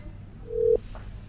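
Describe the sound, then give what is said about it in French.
A single short electronic telephone beep on a line that has been cut off: one steady, mid-pitched tone lasting about a quarter second, fairly quiet over a low background hiss. “Oh, désolé, mais la ligne est coupée.”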